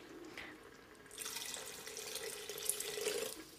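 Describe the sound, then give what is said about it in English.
Water is poured into a pot of cooking rice, a soft rushing splash that swells after about a second and runs on steadily, quiet overall. “put more water, and we bring the fire a little bit larger”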